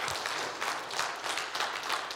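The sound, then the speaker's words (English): Audience applause during a church sermon: dense, steady clapping that holds at an even level for the whole stretch, with no speech over it. “Can we give him a round of applause?”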